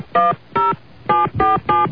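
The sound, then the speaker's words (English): Five touch-tone beeps as a telephone number is dialed. The short, steady electronic tones come at a fairly even pace and sound alone. “Okay. Let me dial it up here.”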